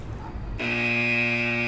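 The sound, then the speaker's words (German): A buzzer alarm sound effect used as a spoiler warning: a loud, steady, harsh buzz that starts abruptly after a brief quiet lead-in and holds at one pitch. “Jetzt ist der Punkt, wo wir den Spoiler-Alarm setzen.”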